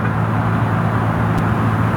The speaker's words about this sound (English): we've seen a steady flow of traffic throughout the en route here in King City